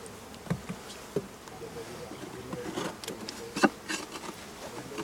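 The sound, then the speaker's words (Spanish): Honeybees buzz around an open beehive in a faint, steady droning hum, broken by a few soft knocks and brief louder passes of single bees. “Ahí se ha colado una abeja”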